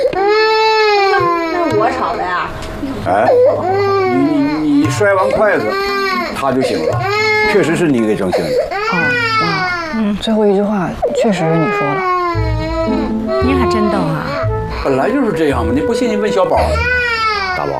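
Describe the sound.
A baby who has just been woken cries loudly and continuously, with repeated wailing bursts whose pitch bends up and down, and breathy gasps between sobs.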